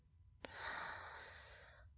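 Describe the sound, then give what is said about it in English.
A single slow breath drawn in during a guided relaxation exercise, soft and airy, swelling after a faint click and then gradually fading out over about a second and a half. “Let your whole body rest as well as your mind. Breathe in.”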